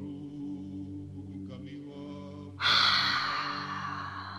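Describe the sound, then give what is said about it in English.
A slow deep inhalation during a guided breathing exercise: a soft airy breath that starts partway through and swells to a steady rush over a continuous low droning tone. “And now again, breathe in for four.”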